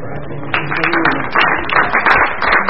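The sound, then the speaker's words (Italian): Audience applause at a civic cultural event, heard as a dense crackle of many hands clapping. It swells after the first half second and stays steady to the end. “Questo è un applauso sulla fiducia.”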